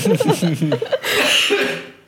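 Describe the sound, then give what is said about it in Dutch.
Coughing after choking: a few short voiced, laugh-like bursts give way to a long, rough, breathy cough that slowly fades out. “Ik verstik me.”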